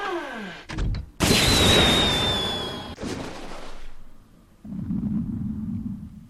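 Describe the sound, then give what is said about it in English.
Missile launch in a turn-based artillery video game, fired with a keypress: a few sharp bursts, then a loud sustained whooshing roar with a thin whistling tone running through it, and finally a lower, steady rumbling noise. “Let's go ahead and hit the space bar here to launch this missile.”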